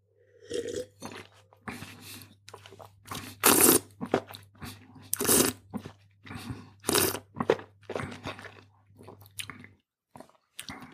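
Sulfur-free wine being tasted: many short, irregular wet slurping and swishing sounds, fairly quiet over a low steady hum, with no talk.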